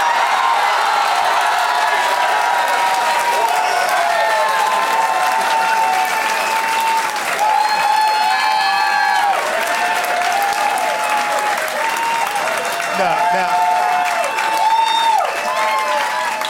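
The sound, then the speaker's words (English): Audience applause rings out steadily for the full stretch, a loud, even wash of many hands clapping with no talk over it. “I think these are false claps, man.”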